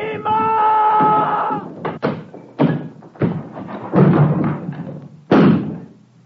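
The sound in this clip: Heavy thuds of a door being smashed in, a radio drama sound effect. Several loud, uneven blows land in a ragged sequence, each one a dull booming impact.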